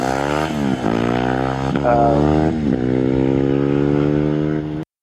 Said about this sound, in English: Not a KTM. It's a Ducati.